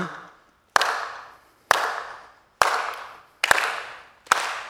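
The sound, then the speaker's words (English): Five sharp, single hand claps ring out with short decaying tails. They come roughly a second apart, with silence in between and no other sounds. “I think the best illustration that I've thought of so far is like if I just erratically clap, you would have a hard time following that.”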